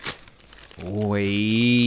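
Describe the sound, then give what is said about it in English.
A plastic wrapper crinkles and tears off a packaged Naruto Kakashi collectible in a few quick, crackly bursts, then a sustained voice takes over. “So I'm gonna hand it over, you can unwrap it.”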